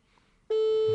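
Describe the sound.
A telephone ringback tone heard while placing a call: after a quiet half second, a loud, steady, single-pitched tone starts abruptly and holds unbroken to the end.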